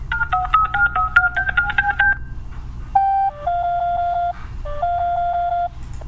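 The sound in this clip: An incoming phone call rings with electronic telephone tones. A quick run of pitched beeps is followed by two longer, sustained ringing tones separated by a short gap, over a low background hum.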